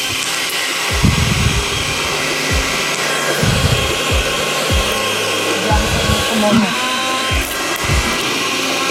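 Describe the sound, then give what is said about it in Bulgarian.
A kitchen blender runs while blending avocado with a little water, giving a steady, loud whirring motor roar throughout, with a few low thumps as the contents churn. “Да пускам блендър.”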